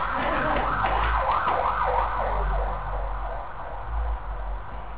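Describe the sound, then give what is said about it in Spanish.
Ambulance siren wailing in repeated rising and falling sweeps over a low road rumble, then fading away while the traffic noise continues. “Ahí viene la ambulancia y tiene que asistir a alguno de ustedes.”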